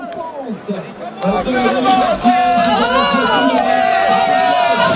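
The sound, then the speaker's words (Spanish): Spectators at a cycling race finish shout and cheer as a dense mass of overlapping voices, rising in loudness partway through and staying loud as the cries swell and blur together. “Se lo oye más al público que hay abrazándose con sus auxiliares.”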